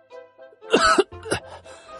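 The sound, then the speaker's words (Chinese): An injured squad leader lying on a stretcher gives a short, harsh cough, a burst of rough throaty noise after a few faint breaths, then trailing off into quiet. “这时那躺在担架上的班长咳嗽了一声，紧接着睁开眼睛茫然地打量着四周。”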